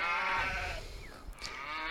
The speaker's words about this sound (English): why are there more cows? I feel like the cows gained since I started talking. They are just coming around.